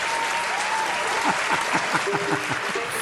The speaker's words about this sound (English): I love the claps.